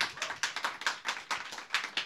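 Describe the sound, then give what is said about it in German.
Audience clapping, a quick run of many sharp, fairly even hand claps that stays faint and steady throughout, with no voices over it. “ihr dürft bitte immer, ja, immer klatschen, klatschen, klatschen. Eigentlich könnt ihr durchgehend klatschen, wenn ihr wollt.”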